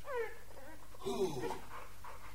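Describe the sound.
A dog whimpers and pants, giving short, high whines near the start and again midway, with breathy panting running steadily underneath.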